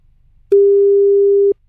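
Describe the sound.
A telephone tone sounds once, a single steady mid-pitched beep lasting about a second, then stops, over a faint low background hiss.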